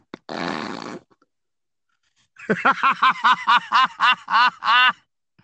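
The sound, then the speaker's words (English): A mouth-made fart noise, a buzzy raspberry rasp lasting under a second, then a short pause and a long run of many rhythmic, pulsing laughs. “Did your mouth just fart? Sorry. I think your mouth queefed.”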